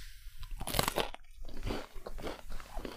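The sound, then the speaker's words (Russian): Crisp crunching as someone bites into homemade cheese breadsticks: a few loud, brittle crunches followed by crackly chewing, with no talk. “Ну, а мы сделали свой домашний вариант и добавили немножко сыра. Попробуем.”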